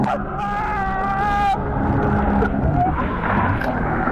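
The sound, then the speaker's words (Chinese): Jet ski engine during a sharp high-speed turn, a strained, whining harmonic tone for about a second and a half that then gives way to a rougher, noisy rumble. “摩托艇一个急转弯，由于速度太快，离心力很大，记者瞬间失去平衡，被甩入水中。”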